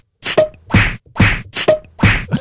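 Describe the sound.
Tennis balls being struck, heard as a sound effect: a series of sharp, hollow thwacks in an even back-and-forth rhythm, each followed by a short ringing tail.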